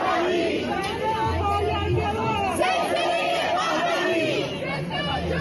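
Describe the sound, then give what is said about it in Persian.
Crowd hubbub at a rally of Iranian supporters, gathered from various cities and countries to protest executions and an internet blackout: a continuous murmur of many overlapping voices chattering, with no single speaker standing out. “مردمی که امروز اینجا جمع شدن از شهرهای مختلف و حتی کشورهای مختلف دور هم اومدن.”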